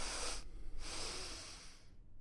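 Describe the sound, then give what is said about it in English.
Airy nasal breathing from a two-inhale breathing technique: hissing sniffs broken by brief pauses, then a longer draw that fades out, with no talking. “he has this breathing technique that it's two inhales through your nose”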